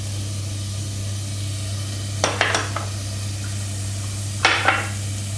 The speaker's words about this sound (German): Das schwitze ich jetzt an, dass es glasig wird, das Ganze.